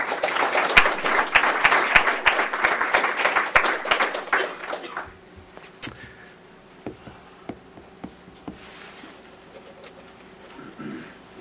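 Audience applause welcoming a political cartoonist as the guest at a forum on political cartoons: dense, loud clapping for about five seconds, then dropping to scattered, fainter claps.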